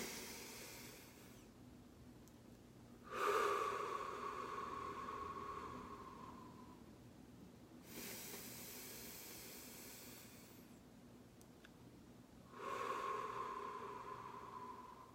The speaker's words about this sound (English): As we inhale through the nose and out through the mouth,